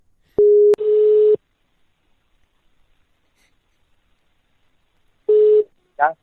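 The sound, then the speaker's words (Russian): Telephone call tones while placing a call: a steady, low electronic beep, a long silence, then another short beep of the same pitch, followed by a brief chirp at the end. “Сейчас я еще позвоню Данте этому.”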